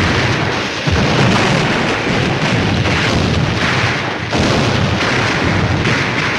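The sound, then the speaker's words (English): Explosions and machine-gun fire in a wartime battle scene form a loud, dense, continuous roar of booms and blasts with no break. “Under the barrage of machine gun fire and explosions, Sergeant Early keeps low as he hurries past the trees.”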